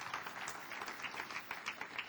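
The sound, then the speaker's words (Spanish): Faint applause from a church audience, many hands clapping in a soft, steady, dense patter that stays even throughout. “Un aplauso a los hermanos por su participación, ¿verdad?”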